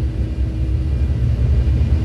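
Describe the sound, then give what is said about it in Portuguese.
A steady low rumble with a faint underlying hum comes from an airliner's flaps moving as the crew prepare for takeoff. It stays even and continuous throughout the short stretch, with no voices. “Barulho do flap.”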